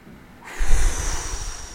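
A person breathing hard in a single heavy exhale, a forceful rushing burst that starts abruptly after a quiet moment and trails off slowly, with no talk.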